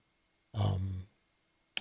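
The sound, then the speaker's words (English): A work headset knocked over with a crash: a short muffled clatter with a low, rumbling body, then after a silent pause a single sharp click. “maybe the crash knocked over my work headset. Whoops.”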